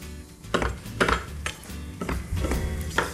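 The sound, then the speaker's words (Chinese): A knife cuts mushrooms and side vegetables for a curry, making several sharp taps against a board at an uneven pace over a low background hum. “接下来的话，我们就切一点点配菜，好，等一下呢，把它一起加进去。”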